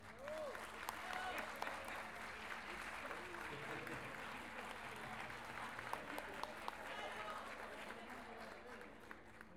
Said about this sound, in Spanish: Un aplauso a los que estuvieron recién.